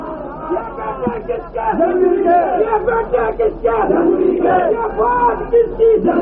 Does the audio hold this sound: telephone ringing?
no